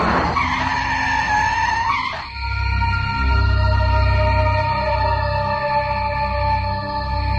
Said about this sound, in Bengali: থামাও এখনই থামাও গাড়ি।